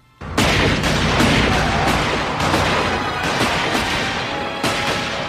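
Gunshots fired at the tires of a runaway RV: several sharp cracks at irregular intervals over a loud, continuous rushing roar.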